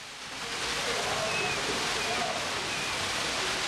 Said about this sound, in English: He turns on a tap.